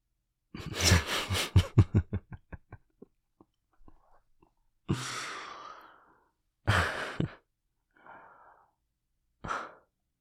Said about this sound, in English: And take a deep breath.